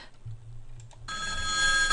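A telephone rings while someone calls their son. A bright, steady electronic ring starts about halfway through, after a low, steady hum.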